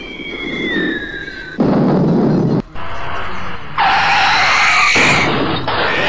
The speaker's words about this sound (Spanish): Pero como esto es audio, solo escucharán explosiones y disparos